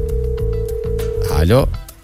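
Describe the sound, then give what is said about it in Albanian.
A steady telephone tone for an incoming call holds one pitch for about one and a half seconds over other low sounds, then gives way to a brief swooping sound. “Ndërkohë kemi një telefonat.”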